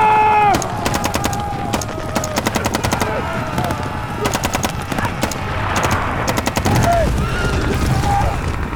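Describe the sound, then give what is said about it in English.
Loud bursts of rapid gunfire from riders' guns as a mounted group opens fire for their tribe, the shots cracking in several tight clusters of quick reports with short gaps between volleys. “Everyone with good eyes and a steady hand, grab a gun. We ride now for the tribe! Fire!”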